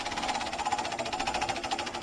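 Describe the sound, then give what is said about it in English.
A prize wheel spins very fast, rattling off a rapid, even stream of clicks that holds a steady pace at moderate loudness. “I don't think the wheel has ever spun that fast.”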